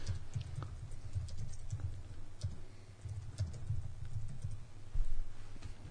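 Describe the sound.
Faint, rapid clicking of a computer keyboard as a search is typed, with irregular keystrokes over a low steady background hum.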